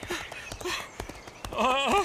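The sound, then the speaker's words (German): Pony hooves clip-clopping in a few irregular knocks, with some talk over them and a louder wavering voiced sound toward the end. “Sie ist eigentlich ein ganz liebes, schüchternes Pony.”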